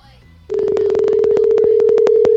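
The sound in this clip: A telephone line crackles during a call: a loud, steady mid-pitched tone comes with a rapid run of regular crackling clicks, after a brief faint voice at the start.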